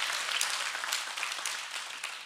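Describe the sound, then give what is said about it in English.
A church audience claps its hands in a steady rhythmic pulse, fairly quiet and slowly fading. “Come on, clap your hands. Come on, work with me, work with me.”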